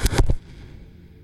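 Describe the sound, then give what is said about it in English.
Grenades explode during a riot inside a main dome: three sharp, loud blasts in quick succession, then a low rumble that fades out. “We are in the main dome right now. We are rocking it. They're throwing grenades. They're freaking shooting people with paintballs, but we're in here.”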